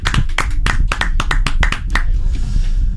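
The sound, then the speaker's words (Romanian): Loud, sincere applause from a studio team reacting to a piece of art, many sharp hand claps in quick succession that stop after about two seconds, leaving softer background noise. “sunt aplauzele sincere. Am pornit microfoanele doar ca să auziți reacțiile echipei de la Zoo în fața artei.”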